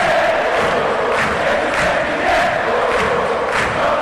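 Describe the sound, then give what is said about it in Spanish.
Football crowd chanting after Cerro Porteño's 2-1 win, a loud mass of voices singing together with a steady rhythmic pulse of emphasised beats repeating through the chant. “Muy buena respuesta de público. Cerro ganó 2-1. Con este cántico, repito, el público soberano, ¡déjalo bailar!”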